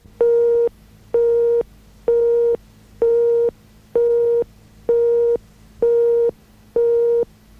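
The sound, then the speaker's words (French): A telephone tone beeps eight times in an even rhythm, each beep a clean, steady, mid-pitched tone about half a second long, loud and alone, heard on a call to an answering machine. “Oh, c'est chiant ton répondeur.”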